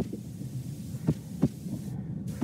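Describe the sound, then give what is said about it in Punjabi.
Heartbeat of a bus driver after being yelled at, insulted and threatened: a few dull, low thumps in an uneven rhythm over a steady low hum. “ਇਹ bus driver ਦੇ ਦਿਲ ਦੀ ਧੜਕਣ ਦੀ ਆਵਾਜ਼ ਹੈ ਉਸ ਉੱਪਰ ਚੀਕੇ ਜਾਣ ਤੋਂ ਬਾਅਦ ਬੇਇੱਜ਼ਤੀ ਕੀਤੀ ਗਈ”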